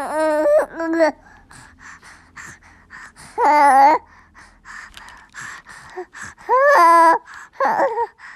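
A young foster son babbles without words: several loud, squealing vocal bursts with quieter chattering, panting and breathy sounds in between.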